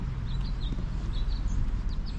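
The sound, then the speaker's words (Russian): Small birds chirp in a few short, high, faint calls scattered over a steady low rumbling background. “Вот, видите, птички поют. Птички божьи поют.”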